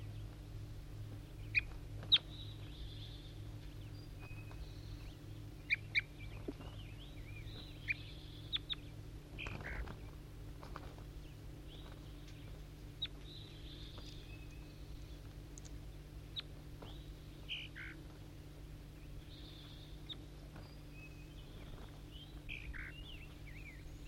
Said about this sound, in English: Responding, I think, to a wild bird in the distance.